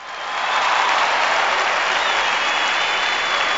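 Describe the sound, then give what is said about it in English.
Applause from a crowd builds over the first half second, then holds as a steady, dense wash of clapping until the end, with no other sound standing out. “my 30th episode, and that deserves some fanfare, I believe.”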